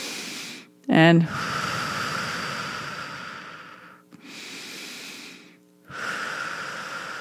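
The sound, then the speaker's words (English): Guided breathing, in through the nose and out through the mouth as if blowing through a straw, during a relaxation exercise: a few long, steady rushes of airy breath noise with short pauses between them. One word is spoken briefly at the start. “we're going to breathe in through our nose, and we're going to breathe out of our mouth like we're blowing through a straw. So it sounds like this.”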